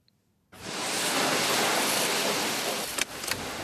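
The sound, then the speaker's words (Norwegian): Steady rinse water spraying in a car wash hall in Oslo, washing road dust and mud off a car. The broad, loud hiss starts abruptly after a short quiet moment and holds evenly, with a couple of small splashy bumps near the end. “Vegstøv og gjørme forsvinner med skyllevannet ved en av de mange bilvaskehallene i Oslo.”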